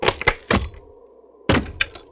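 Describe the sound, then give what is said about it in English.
Heavy thuds of village doors being slammed shut and locked, a few loud wooden knocks in two quick clusters separated by a quiet stretch, with no talking. “They locked their doors,”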